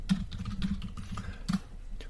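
Someone types on a computer keyboard, a quiet, irregular patter of light keystrokes with a few sharper taps.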